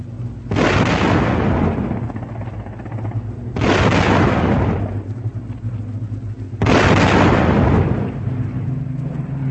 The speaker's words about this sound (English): There go the guns, flashing on the decks below.